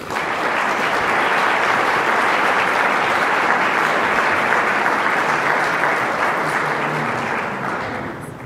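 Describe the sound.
Warm audience applause welcomes a speaker to the stage at an evening talk. The clapping is dense and sustained at a steady, fairly loud level for about eight seconds, then begins to taper off at the end.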